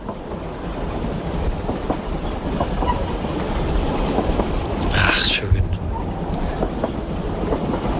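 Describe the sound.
Train running on rails, a continuous rolling rumble with light clatter throughout and a brief hissing burst partway through, while a voice speaks briefly.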